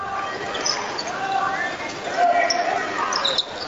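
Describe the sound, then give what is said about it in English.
A basketball is dribbled on the court during a boys' high school game between Rising Sun and South Dearborn. Repeated bounces sound under steady crowd noise from the gym. “Left hand dribbles all the way to the baseline, picks it up.”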